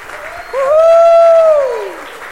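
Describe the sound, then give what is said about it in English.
An audience applauds at a church service after an engagement announcement. One long, sustained whooping cheer rides above the steady clapping, rising and then slowly falling away. “So thank you for the applause”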